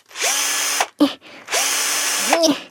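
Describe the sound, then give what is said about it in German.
Power screwdriver unscrewing seat fixings: two sustained high whirring runs, each spinning up at the start, separated by one brief burst, loud and steady. “So, guck mal, warte mal, wie ich stelle. Ich schraube mal kurz die Sessel wieder ab.”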